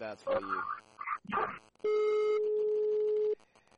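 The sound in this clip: After a dropped phone call, a telephone busy tone sounds as one steady, unbroken pitch lasting about a second and a half, following a short stretch of talk.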